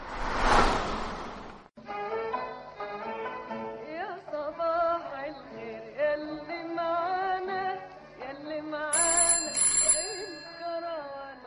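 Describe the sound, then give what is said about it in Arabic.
A home telephone rings with a melodic electronic tone pattern that repeats for about ten seconds after a short burst of noise at the start. A brighter, higher chime layer joins near the end. “للمرة الثالثة هذا الأسبوع يدق جرس الهاتف.”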